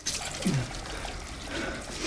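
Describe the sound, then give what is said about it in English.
Running water at a bathroom sink as a man hurriedly washes blood from his face: a faint, steady trickle and splash that continues throughout, with no voices. “Now in a bathroom, he's hurriedly washing his face, which has blood smeared on it.”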